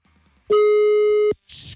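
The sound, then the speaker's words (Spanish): A telephone line tone sounds while a call is being dialed: one steady, loud, pure beep lasts almost a second and stops sharply. A short burst of hissing noise follows. “Así que marcamos en este preciso momento, ahora.”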